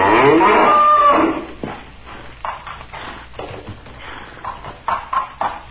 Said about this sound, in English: What strength. See, our great bull forces the other to his knees. The smaller bull has no chance. He should have run away instead of choosing to fight. Look, Father. The small bull is down.